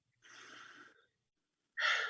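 Deep breathing, with a soft, airy breath lasting under a second, a pause of silence, then a louder, fuller breath that runs to the end. No talking is heard.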